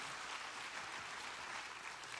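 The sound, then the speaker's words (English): Audience applause at a gathering: a dense, steady wash of many hands clapping that holds at an even, moderately loud level for about two seconds, with no voices heard over it. “Can you give Steve and Deanne another big round of applause?”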